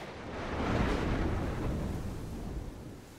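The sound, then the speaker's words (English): Deep rumbling thunder from lightning striking the ocean during a violent storm at sea, a loud sustained roar that swells within the first second and then slowly fades over about three seconds. “Then it engulfs her, and lightning strikes the ocean.”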